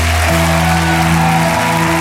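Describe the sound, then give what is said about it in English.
An audience claps hands during a worship service, producing dense, steady applause that carries over sustained musical tones throughout. “Clap your hands and shout.”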